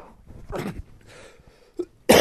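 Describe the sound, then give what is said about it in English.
Coughing from a person still recovering from the flu: a few rough, breathy bursts, one short and then a loud harsh cough at the end, with no talk. “I apologize for all the coughing.”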